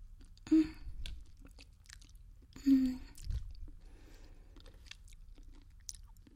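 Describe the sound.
Quiet chewing of food by a person being fed, with two sharp crunchy bites separated by soft, moist mouth sounds.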